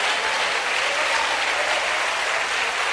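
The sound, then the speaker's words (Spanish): Enthusiastic applause from a church audience during a Spanish-language worship service: dense, steady clapping that stays loud and even for the full three seconds, with no voices breaking through. “Démosle ese aplauso con todo entusiasmo al Señor.”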